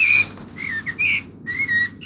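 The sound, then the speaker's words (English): A blackbird singing a few clear, fluty whistled phrases separated by short pauses, high-pitched and heard alone. “Sir David Attenborough, accompanied by Blackbird.”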